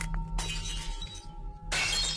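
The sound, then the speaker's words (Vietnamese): Cups and glasses falling and shattering as wind sweeps across a table: two loud crashes of breaking glass with clinking debris, set over a continuous low rumbling background. “Gió lùa vào bàn vong, bàn ghế uống nước, cốc chén, cứ thế mà rơi vỡ loảng xoảng cả lên.”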